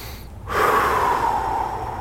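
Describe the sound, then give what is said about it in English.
A deep breath drawn in after a short silence: a long, steady, airy inhale that swells quickly and holds at an even level until the end, with no talking. “The first thought is to take a deep breath. Let's just pause for a moment and”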